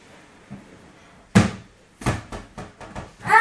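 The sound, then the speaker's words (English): A toy basketball bouncing during a child's game at home: several dull, uneven thuds. One louder hit is followed by quicker, irregular bounces. “Bounce it to me, Mum. Yes, I have to bounce it over there, and I have to get into the net.”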